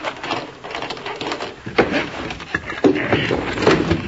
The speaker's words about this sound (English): slide that door back, Red. Oh, yeah. You gotta unlock it first